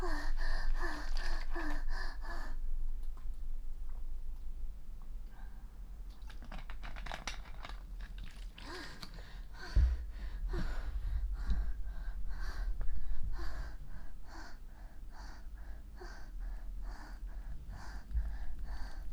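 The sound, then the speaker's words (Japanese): Someone drinking water close to the microphone: quiet swallowing and breathy exhales, with a few soft low thumps and rustles along the way, and no speech. “ちょっと、お水飲みます。”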